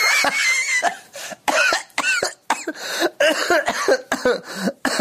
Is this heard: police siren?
no